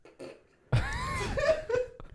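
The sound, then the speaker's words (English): A person farts with a long, rasping blast of wavering pitch that lasts over a second, fairly loud after a quiet start. “I farted again. That smells crazy.”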